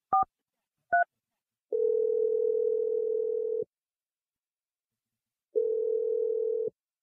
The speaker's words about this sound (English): I'm dialing her number right now.